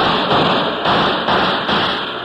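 Gunshots fired at a target during shooting practice, heard as a few heavy, muffled bangs that each blur into a dense, noisy roar with no clear gap between them.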